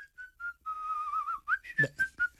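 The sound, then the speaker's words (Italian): Someone whistling a lively tune: a few short clipped notes, then a longer wavering held note, followed by several more brisk notes, clear and alone. “e di qualcuno che fischia”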